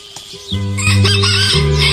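A rooster crows loudly, one long harmonic call of about a second and a half that follows a brief quieter lead-in and holds strong to the end.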